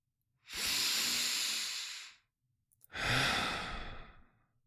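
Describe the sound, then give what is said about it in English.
Two long, deep breaths, airy and hissing, each lasting well over a second with a short pause between them, heard alone without any talking. “Take a deep breath.”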